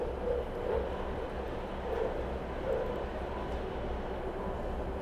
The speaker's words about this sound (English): hop onto Amtrak, which is a real train. Honest to God, real train. But I'd let you hear this one.